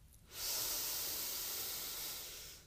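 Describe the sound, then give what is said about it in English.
A deep inhale through the nose during a guided breathing exercise makes a single soft, airy hiss that swells in and holds steadily for about two seconds before tapering, with nothing else heard. “We're going to start to take some breaths together. We'll start with an inhale through our nose.”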